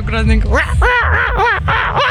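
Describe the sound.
A mother imitating a seagull call during a family contest, loud, nasal, wavering cries repeated in quick succession with squawky rising and falling pitch, filling the whole clip.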